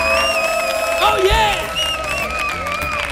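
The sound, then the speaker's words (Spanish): A studio audience in an auditorium applauds and cheers loudly, with whoops and shouting voices over a dense, steady wash of clapping and crowd noise. “para nuestro público, que suena así de fuerte su aplauso”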